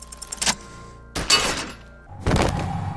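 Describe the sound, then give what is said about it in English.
A bullet strikes a belt buckle in a video game and the buckle bursts into pieces: three sharp, loud impacts, each with a bright shattering crack and a short decaying tail. “The buckle explodes into tiny pieces, coming loose with a whir.”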